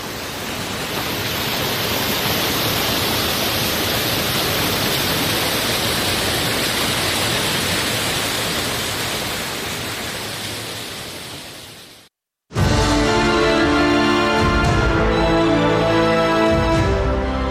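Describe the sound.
Steady, dense rushing of cold spring water flowing at Mazar Baba in Uruzgan, a broad hiss-like roar that holds an even level for about twelve seconds and then breaks off abruptly.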